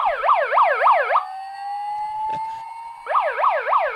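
A toy siren gives a fast, loud electronic yelp warble in two bursts, with a steady, slowly rising single tone between them; no voices are heard.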